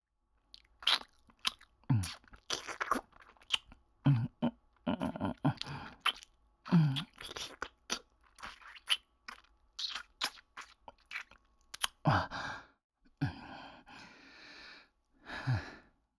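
Food is bitten and chewed with many irregular crisp crunches and wet chewing sounds, broken by soft breaths and sighs, with no talk over them.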